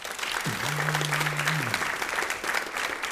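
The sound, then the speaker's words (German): Audience applause at a live comedy stage show: steady, dense clapping throughout, with a drawn-out vocal whoop from the crowd rising above it partway through. “jetzt euer Applaus für Vanessa, die gefragt hat, was die beste Frage beim ersten Date ist. Euer Applaus für Vanessa.”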